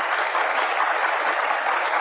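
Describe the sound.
An audience claps steadily and continuously, a dense, even wash of many hands with no talk over it.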